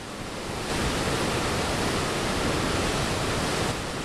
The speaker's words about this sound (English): That's the sound of water rushing through the large arch-shaped openings in the dam.